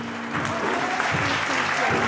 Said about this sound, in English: A huge round of applause for the winners of the best Japanese restaurant of the year, Izumi.